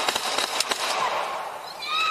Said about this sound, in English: Okay, we got shots fired.